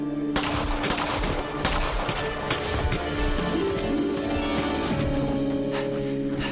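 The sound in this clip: Gunshots in a shootout on a snowy slope among trees: a sharp onset opens a dense, continuous clatter of gunfire that stays loud throughout.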